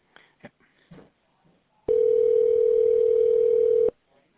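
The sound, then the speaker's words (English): A telephone line tone sounds while a call is transferred at a jewelry store: a steady, unbroken single tone holds for about two seconds, preceded by a few brief, faint sounds. “Yes, let me transfer.”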